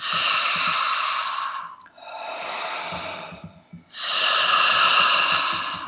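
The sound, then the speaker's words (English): Deep breaths are drawn during a guided meditative session: three long, airy, hissing breaths, each lasting over a second, separated by brief pauses, loud and with no speech. “Deep breath in.”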